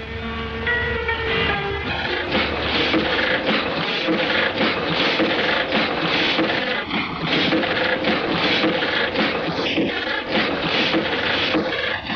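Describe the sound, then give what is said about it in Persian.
A newspaper printing press runs in a dense, continuous mechanical clatter with fast rhythmic rasping and rubbing that holds steady and loud for the whole stretch. “اینجا محل چاپ روزنامه جدید ماست.”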